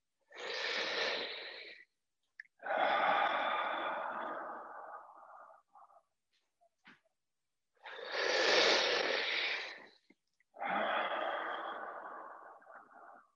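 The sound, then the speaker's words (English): Deep breaths drawn in and pushed out through the open mouth during a breathing exercise: four long, airy hisses, each about two seconds, forming two in-out cycles with short silences between. “Here, you're going to have an easier time of it if you let at least your exhale come out of your mouth, and inhale as well if you want. So again.”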